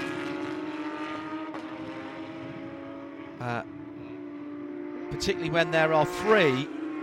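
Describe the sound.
The multicoloured Multimatic race car drones along a circuit's infield straight in a steady humming engine tone, then sharper revving swoops dip and rise near the end, with talk over it.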